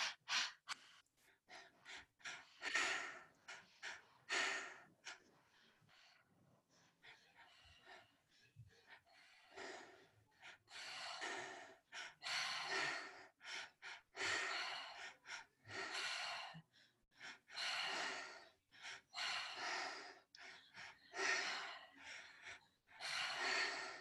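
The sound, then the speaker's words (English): Deep rhythmic breathing from a guided breathwork exercise: many loud, airy breaths in a steady repeating pattern, with gasping intakes and no talking over them. “And when you're ready, starting the breath pattern together.”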